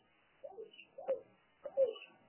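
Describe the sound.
Soft cooing from a bird sitting inside a baseball broadcast booth: three short, low, throaty coos come at even intervals against an otherwise quiet background.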